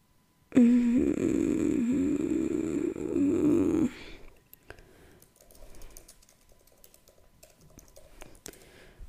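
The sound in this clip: Typing on a computer keyboard: a run of quiet, irregular key clicks follows a few seconds of loud, steady droning hum that wavers in pitch.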